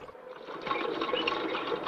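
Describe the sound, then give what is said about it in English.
Water runs from a faucet into a kettle, a steady rushing hiss that starts softly and then grows a little louder. “He fills the kettle with water.”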